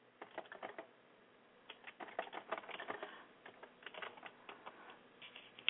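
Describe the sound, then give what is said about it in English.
Faint typing on a computer keyboard: many quick, irregular keystroke clicks that come in bursts with short pauses, and no voices. “So anybody in the chat room, if you could type in if you can hear me, so let me type it in case you're not hearing me.”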